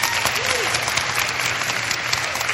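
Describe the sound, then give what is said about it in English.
Audience applause in response to a request to vote by clapping, a dense and steady wash of many hands that stays loud and even from start to finish. “With applause, tell me which one do you think I should post?”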